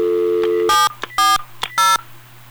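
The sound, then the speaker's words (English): Touch-tone dialing on a phone system: a few sharp, bright keypad beeps of varying lengths cut in over a steady low hum, with fainter shorter tones between them. “A little bit of dialing here, if I can get a number.”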